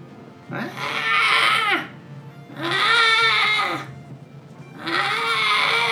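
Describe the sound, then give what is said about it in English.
A human voice imitates a wounded creature's wailing during a tabletop role-playing game: three long, loud wails, each rising then falling in pitch, separated by short pauses. “And now you're close enough that you can hear it. And it is making a sort of wailing sound.”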